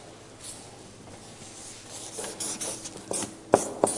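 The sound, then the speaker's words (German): Drawing on a board, faint scratchy rubbing strokes that grow gradually louder and busier, ending with two sharper, distinct strokes. “Ich zeichne euch das mal auf und Sergej ist so nett und weil das wahrscheinlich nicht so gut zu sehen ist, begleitet das dann auch auf der Leinwand.”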